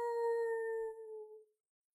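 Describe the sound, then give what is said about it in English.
A person imitates a wolf howl with their voice: one sustained, steady tone lasting about a second and a half, which fades and drops slightly in pitch at the end. “you need to edit out my lame howl”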